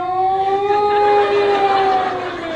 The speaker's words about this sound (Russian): Включается сирена.